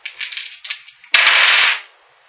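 Dice rolled during a tabletop role-playing game: a quick series of small rattling clicks, then a louder, dense burst of clatter that stops abruptly.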